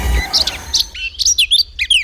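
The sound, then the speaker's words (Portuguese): Eurasian blackcap singing in Portugal in June: after a brief noisy start, many short, bright, high-pitched chirps and whistled notes follow one another in quick, irregular bursts. “Aves que ocorrem em Portugal e que poderá observar este mês. Esta é uma das espécies que lhe propomos para procurar em junho. Toti Negra de Barrete.”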